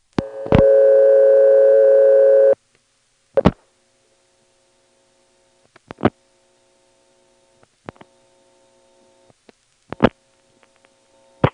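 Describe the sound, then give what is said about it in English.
A call to telephone repair service is dialed directly into a step-by-step switching exchange. It opens with a steady dial tone for about two seconds, then comes a series of sharp switching clicks separated by pauses, with faint low tones in between. “And here's a call to repair service dialed directly into the step, 6114.”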